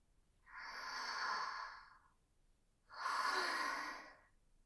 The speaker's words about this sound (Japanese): 落ち着いて深呼吸。深呼吸。